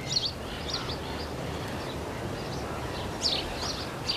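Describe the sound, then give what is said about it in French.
Faint high chirps of seabirds and woodland birds recur irregularly over a steady hiss of ambient noise. “À la fois des oiseaux marins, et nos gazouillis, chers à nos bois et à nos forêts.”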